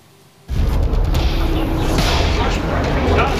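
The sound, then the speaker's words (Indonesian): A sudden heavy blast from an Israeli airstrike on southern Lebanon breaks a quiet moment. It starts with a sharp loud onset, then a sustained rumbling roar that stays loud to the end. “Kamera wartawan merekam detik-detik serangan udara yang menghantam permukiman diiringi suara ledakan yang memecahkan keheningan.”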